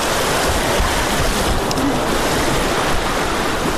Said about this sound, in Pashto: نیم کال ځنډ وروسته د اوبو د شور او د ماشومانو او لویانو پر څیرو د موسکاوي د اورزګان ولایت د تالانی د سیمې د اوسیدونکو دي